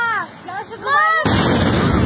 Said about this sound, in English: the power of this explosion. This wasn't just like a firework, but certainly not like a missile. But here is the drone flying into the financial district of Moscow